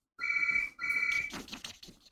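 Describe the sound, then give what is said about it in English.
An electronic telephone ring sounds in two steady, bright tonal bursts with a brief gap, followed by softer irregular noise. “I've used up probably all the ink, but phone's going now.”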